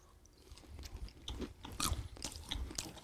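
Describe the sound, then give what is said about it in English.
Crunching and chewing of peanuts: a run of irregular crisp bites and grinding chews, fairly loud, with no talk. “Yep. I'm eating.”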